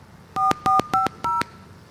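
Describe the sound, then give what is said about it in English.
Telephone keypad tones dial a number on a call to a distribution company's line: four short, loud, evenly spaced beeps, each a clean two-note tone, with brief silent gaps between them. “So I want to call that number, and you can hear for yourself what they say, how they explain this.”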